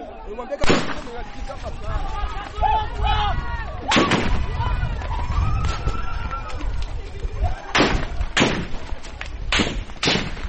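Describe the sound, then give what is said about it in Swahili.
Police gunfire dispersing protesters in Bujumbura, Burundi: several sharp, loud gunshot bursts at irregular intervals crack over a constant rumble of crowd noise and voices. “Polisi inaanza kutumia risasi kuwatawanya waandamanaji hao na kuondoa vizuizi barabarani.”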